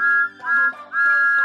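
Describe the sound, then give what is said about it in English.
Thomas the Tank Engine, the cheeky little blue number one steam engine, sounds his whistle: three bright, steady high-pitched blasts with short dips between them. No voices are heard. “He is the number one engine on Sir Topham Hatt's railway and has a whistle that sounds like this.”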